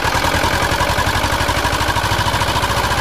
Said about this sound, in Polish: Motorówka z silnikiem Ursusa wpłynęła do zatoki.